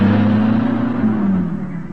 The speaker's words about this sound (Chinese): 快开车，快开，快！